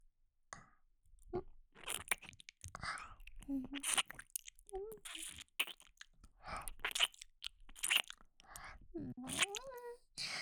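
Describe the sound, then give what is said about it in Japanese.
Close, wet ear-licking mouth sounds: quiet smacks, crackles and crunchy clicks in irregular bursts, with soft breathy whispering and brief voiced murmurs between them. “お耳舐めて、僕くんのことも元気にしてあげるからね。それじゃ、お耳、いただきます。”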